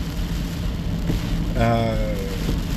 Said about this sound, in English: And it's pouring down rain right now, and I'm driving on the freeway called the M1